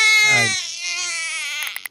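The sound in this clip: An infant girl cries in a short, high-pitched wail that trails off into a few quick broken sobs.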